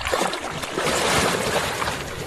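River water sloshes and splashes as a firefighter steps down into it during a drowning-prevention demonstration, a continuous broad wash of moderate loudness.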